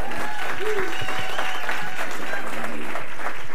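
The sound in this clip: Warm applause from a church audience at an evening service welcoming a pastor to speak, a steady, dense wash of clapping that holds through the whole stretch.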